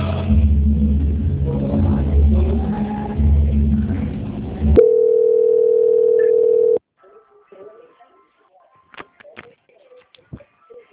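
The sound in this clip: A steady single-pitched telephone line tone plays for about two seconds while a bank call is transferred to its quality-control line. A louder stretch of mixed sound comes before it, and faint scattered clicks follow it.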